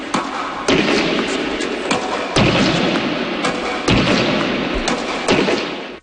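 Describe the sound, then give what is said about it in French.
Tennis racket strokes of an 88-year-old player striking a ball: several sharp, hollow pops land at irregular intervals over a steady background hiss, each hit standing out as a brief crisp thump. “Vous venez d'entendre les coups de raquette d'un joueur qui a aujourd'hui 88 ans”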